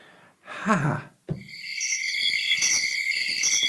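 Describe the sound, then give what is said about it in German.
Crickets chirr in a German city park on a hot summer day, a steady high-pitched trilling that runs continuously after a short, breathy sigh-like sound at the start. “Ungefähr so klingt's in deutschen Stadtparks.”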